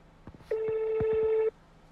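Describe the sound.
A telephone dialing tone as a call is placed to bring a guest on the line: one steady electronic beep held for about a second, clean and level, with a few soft low knocks just before it.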